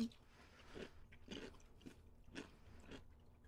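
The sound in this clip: Crunchy chewing on pickles: soft, faint bites repeating at a steady, unhurried rhythm, with no talk over them.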